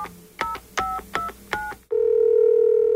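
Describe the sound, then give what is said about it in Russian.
Touch-tone dialing of a telephone number: four short, crisp key beeps at a steady pace, then a continuous tone that holds steady and loud until the end. “Звоню.”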